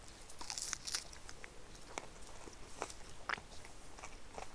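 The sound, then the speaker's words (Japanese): Crunchy biting and chewing into an ice cream monaka, a wafer shell about 1.5 cm wide filled with crisp chocolate. Many sharp crackling crunches sound over faint hiss, with no talking. “アイスモナカで中にチョコレートが入ってるやつですカリカリのチョコレート”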